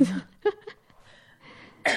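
Coughing while sitting for a pelvic floor exercise gives a couple of short, rough bursts separated by a quieter stretch with faint vocal sounds.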